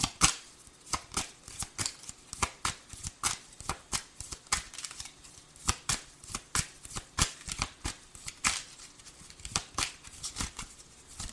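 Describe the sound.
Tarot cards are shuffled in a long run of quick, crisp riffling flicks and snaps. The bursts come in an uneven but steady rhythm and stay fairly quiet, with no voices.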